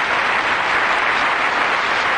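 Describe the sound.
Applause after a song, a steady dense patter of many hands clapping at an even level throughout, with no voices over it.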